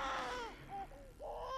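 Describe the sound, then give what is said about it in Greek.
A baby cries at home in a few short, wailing bursts. The cries waver in pitch, with brief breaks between them, and they stay fairly soft. “Αχ, αυτό το μωρό άρχισε πάλι τα κλάματα.”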